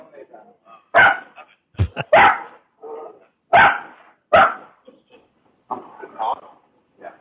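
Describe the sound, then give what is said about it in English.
Dogs bark in sharp, loud bursts spaced a second or so apart, mixed with a person talking between and over the barks. “God, the fucking dogs. Oh my gosh, you're safe. Shut up, dogs.”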